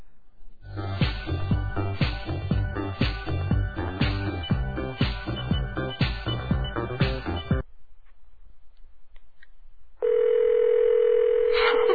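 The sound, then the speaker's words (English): A telephone dial tone comes in near the end as someone goes to dial a number, a steady, unbroken hum that holds at an even level after a short silence. “Well, I'll dial that number and I'll be right back.”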